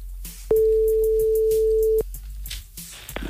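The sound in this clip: A telephone line tone sounds as a call is placed live during a radio call-in contest: one steady, mid-pitched hum lasting about one and a half seconds, then it stops abruptly. Faint background noise follows.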